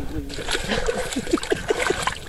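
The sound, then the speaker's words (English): Periwinkle snails dropped by hand into a bucket on the shore of a bay: a quick run of small, hollow plops and clicks over a steady wash of water and outdoor noise. “dropping periwinkle snails in her bucket”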